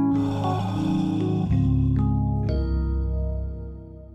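A short musical section jingle of sustained, bright chords that change a few times in steps, holding steady before fading near the end, with no talk over it.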